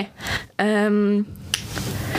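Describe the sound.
A forehead flick given to the loser of a game, one sharp, snappy finger click, preceded by people talking and a held vocal sound.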